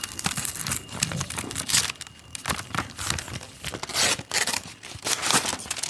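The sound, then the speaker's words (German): Paper crinkling and tearing as a golden paper envelope is opened: dense, continuous crackling rustles with sharp bursts, lasting about six seconds with no talk. “Der goldene Umschlag. Ich mach ihn mal auf.”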